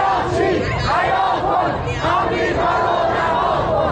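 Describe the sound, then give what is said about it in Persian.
A crowd of regime supporters chants slogans in front of the foreign ministry office in Mashhad. The many voices shout in a loud, steady, rhythmic chorus that fills the whole clip without a break. “شعار شماری از هواداران نظام در مقابل نمایندگی وزارت خارجه در مشهد که شنبه شب به تهران هم رسید.”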